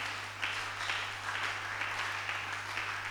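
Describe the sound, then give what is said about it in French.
Applause from an audience in church, faint and steady, with soft swells in the clapping and a low electrical hum running beneath it. “Acclamons pour le frère. Acclamons maintenant pour le Seigneur.”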